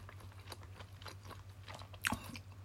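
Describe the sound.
Chewing on a ham snack, with a run of soft, crunchy bites repeating at a fairly steady rhythm and one sharper crunch near the end, all faint over a constant low hum.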